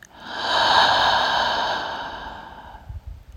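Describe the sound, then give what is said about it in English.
A slow, deep breath, heard as one long, soft, airy swell that gradually fades. “So we'll take a deep breath in through the nose, out through the mouth.”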